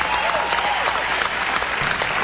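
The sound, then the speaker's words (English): Applause for guitarist Stevie Ray Vaughan: a thick, continuous patter of many hands clapping at an even, fairly loud level from start to finish. “That's for you, by the way, the applause. For one of the world's premier guitar players, Mr. Stevie Ray Vaughan.”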